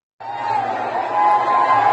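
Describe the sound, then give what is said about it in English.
Anti-government protesters cheer as they break into the heavily fortified office compound of the Sri Lankan Prime Minister in Colombo. The crowd roar starts abruptly and holds steady, growing a little louder toward the end. “Cheers from anti-government protesters who'd made it past armed soldiers, tear gas and water cannon and scaled high walls to break into the highly fortified office compound of the Sri Lankan Prime Minister.”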